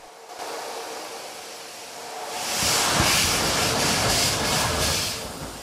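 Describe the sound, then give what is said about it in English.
A steam locomotive starts away on a 1 in 100 gradient, its huge wheels beginning to turn; after a quiet opening, hissing steam and chuffing swell to a loud, rhythmic roar before easing slightly at the close. “The locomotive's huge wheels slowly begin to turn.”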